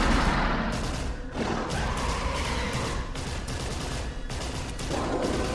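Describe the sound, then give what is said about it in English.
Dense, chaotic gunfire and crashing thuds fill the whole stretch without letup, a loud continuous barrage with no voices. “you start hearing a ruckus come from the way that you just came. The sounds of gunfire and claws skittering on the floor”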